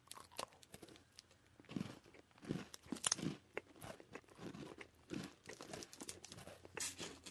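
Crunching and chewing of a cookie: many irregular, quiet crunches and munches follow one another steadily, with no talk over them.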